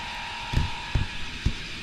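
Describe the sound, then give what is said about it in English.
Microphone being adjusted on its mount after drifting loose: three dull, low handling thumps spaced unevenly over a faint steady hum. “Adjusting the microphone here, it's all wonky. It was drifting on its own. Can't have that. Needs to stay still.”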